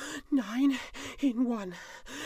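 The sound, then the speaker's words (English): A voice imitates panting after a scramble down a mountain over boulders and scree, producing a few drawn-out, breathy voiced gasps with short pauses between them. “came to a stop very suddenly. She panted.”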